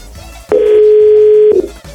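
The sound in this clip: A telephone ringing tone as a call is placed: one continuous, steady low beep lasting about a second, loud and clear against faint background noise before and after it.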